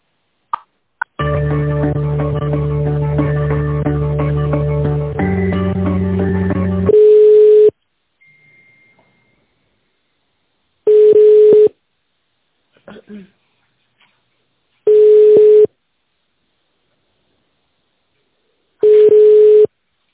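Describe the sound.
Telephone line tones play during a call transfer: a long steady tone whose pitch steps down partway, then four evenly spaced short ringing tones at a single pitch with silence between them.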